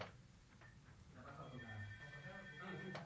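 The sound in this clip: A telephone rings with an incoming call to a radio show. The electronic ringing tone is faint and steady, with voices beneath it.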